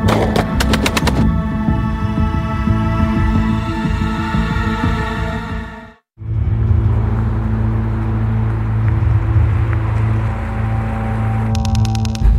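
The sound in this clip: Sustained gunfire after an order to commence fire: dense rapid bursts and a continuous rattling roar over a low throbbing hum, broken by a brief silent gap midway.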